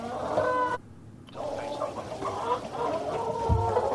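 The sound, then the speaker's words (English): Chickens cluck around a farm in a steady, low chatter of overlapping calls, with a brief lull near the start. “No, that's chickens again, isn't it? Around the farm.”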